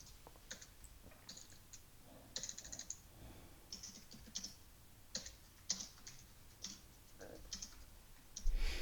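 Typing on a computer keyboard: many faint, irregular key clicks in quick bursts separated by short pauses, with no talk.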